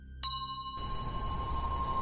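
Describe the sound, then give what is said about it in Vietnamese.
A hand bell rings in a ritual: one bright metallic strike opens a sustained, shimmering ring with several clear overtones, which carries on over a steady low background noise. “Vừa dứt câu, bàn tay phải của thầy khẽ vung chiếc chuông lắc mấy cái, A Lượng lại xuất hiện ra.”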